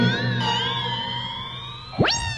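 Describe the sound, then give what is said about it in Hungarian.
A cat meows loudly in a bathroom, a long, wavering, drawn-out yowl with a bright, strained tone, ending in a sharp upward sweep. “És rettenetes nyávogás töltötte be a fürdőszobát.”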